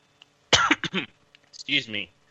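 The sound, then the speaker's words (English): Harsh coughing and throat clearing from someone who briefly chokes, in two clusters of rough bursts separated by a short pause. “Excuse me. Sorry, I choked for a second.”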